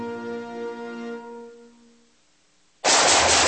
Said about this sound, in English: Whew, nice shooting.